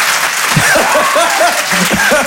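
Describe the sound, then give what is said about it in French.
Audience applause in a comedy show hall as spectators answer a question by clapping, a loud, steady wash of claps with voices heard over it throughout. “Par applaudissement, qui n'est pas du matin dans la salle?”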